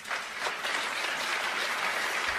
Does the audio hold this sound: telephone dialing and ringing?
no